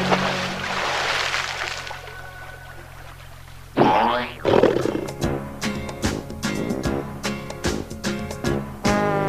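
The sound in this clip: Elephant trumpeting, heard as two loud brassy blasts after a quieter opening, followed by rhythmic music with sharp percussive hits.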